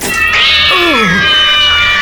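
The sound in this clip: A cat gives a single loud, drawn-out meow. Its pitch slides downward through the middle of the call before trailing off.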